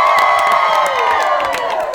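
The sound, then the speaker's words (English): A live studio audience cheers and whoops at a game show taping. The loud, dense crowd noise holds steady for about two seconds. “We also have an amazing, like, studio audience that I never expected. Can I hear you, studio audience? Let's hear a little bit.”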